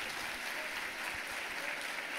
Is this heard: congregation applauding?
yes